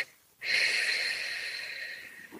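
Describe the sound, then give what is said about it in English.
A long, steady exhale from a breathing exercise: a soft, airy hiss that starts abruptly and holds for about two seconds, fading slightly toward the end, with no talking over it. “Inhale, short, long breath. Inhale, short, long breath.”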